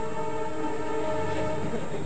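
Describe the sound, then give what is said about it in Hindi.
A conch shell blown in one sustained, unwavering blast. Its rich, buzzy, harmonic drone stays loud and steady for about two seconds. “जय हो शंख बजा रहे हैं।”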